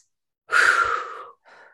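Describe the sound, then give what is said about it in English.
A deep breath drawn in, a broad, airy inhalation lasting under a second, followed by a shorter, softer breath. “let's take a deep breath in.”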